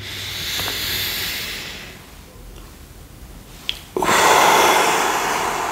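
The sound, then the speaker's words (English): One deep breath during a guided mindfulness meditation: a long, airy inhale, a quieter pause, then a stronger, louder breathy exhale that runs on to the end. “Take one more big, deep breath.”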